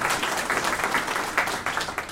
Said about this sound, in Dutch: Ik vind dat dat best eens een applaus mag hebben.